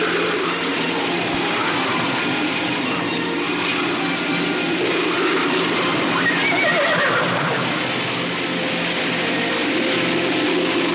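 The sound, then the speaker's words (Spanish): A horse left outside in a storm with a blanket over its head whinnies midway through, a wavering neigh over steady loud background noise. “El caballo se queda fuera con una manta encima de la cabeza.”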